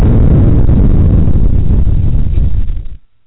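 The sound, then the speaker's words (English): A bomb explosion sound effect: a heavy, muffled rumbling blast that roars steadily for about three seconds, then dies away abruptly into silence. “let's do the bomb thing again.”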